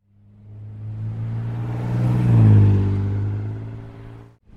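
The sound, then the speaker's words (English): A 1986 Honda Civic accelerating hard as it drives away, its engine drone building steadily to a loud peak before fading out. “Those words played over and over again in my head as I drove away from the department, foot nearly crushing the gas pedal into the floor of my 86 Honda Civic.”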